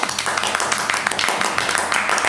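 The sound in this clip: Applause for the winner of a game, a short burst of many hands clapping in quick, irregular patter at moderate loudness.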